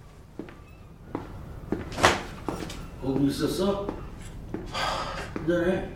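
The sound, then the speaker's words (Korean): A door being closed, heard as a sharp thud near the middle among a few softer knocks and movement noises, with muffled voices around it. “문 닫고 나가.”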